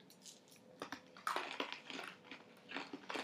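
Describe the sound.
Crunching of people chewing a handful of Nerds candy: faint, irregular bursts of crisp, brittle crunches, several overlapping, with short pauses between bites.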